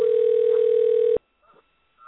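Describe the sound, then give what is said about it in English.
A telephone dial tone gives a loud, steady, single-pitched hum that cuts off abruptly about halfway through. Near silence follows, broken by a few faint, brief sounds. “And it is dialing. Now let's see what happens.”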